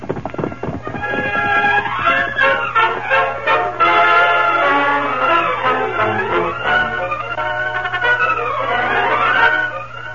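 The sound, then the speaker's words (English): Horse neighing loudly with clip-clopping hooves as riders set off, a long shrill whinny early on and another near the end over steady hoofbeats. “Get him up, Scout. I'll ride to meet the masked man. Come on, Victor.”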